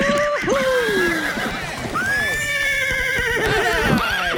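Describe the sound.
A horse neighs in a couple of long, shrill whinnies whose pitch wavers and falls away, with hoof clops beneath them.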